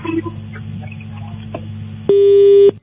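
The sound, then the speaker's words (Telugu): A telephone tone sounds on a line after a call is disconnected, before the next caller is dialed. A low murmur of line noise is followed by one loud, steady electronic tone that holds for about half a second, then cuts off. “Call disconnect చేస్తావా? వేరే callers చేస్తున్నా.”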